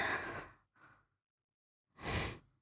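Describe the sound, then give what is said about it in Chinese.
Heavy breathing: three quiet, breathy airflows, a long exhale, then a short one, and after a pause a final strong breath, each soft and unvoiced. “你干嘛这么用力呼吸啊？你这么用力呼吸，”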